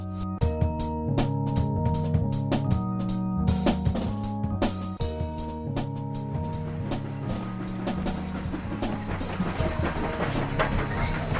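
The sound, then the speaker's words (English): Train wheels clicking on the rails: a loud, rhythmic clickety-clack of many sharp clicks over a continuous rolling rumble. “Hear that click of the rails? To a railroader, that's the same music as a hush in the theater to an actor before the footlights come up. The click of the wheels on the rails gets into your blood.”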